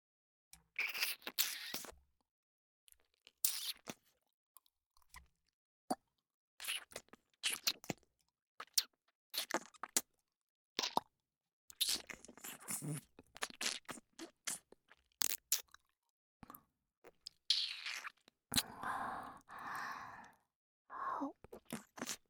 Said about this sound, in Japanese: 耳舐めの方を開始させていただきます